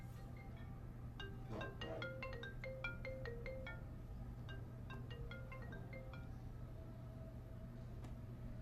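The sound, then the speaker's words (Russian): A mobile phone rings with a melodic ringtone of quick, bright electronic notes in repeating bursts over a steady low hum, then falls quiet near the end. “У него звонит телефон.”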